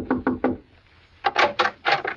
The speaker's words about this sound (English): the Shady Glade and knocked at the door of cabin number 4